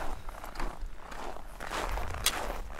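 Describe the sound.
Footsteps of a person walking, a run of soft, evenly spaced steps at a moderate pace, continuing through the whole short stretch without talk.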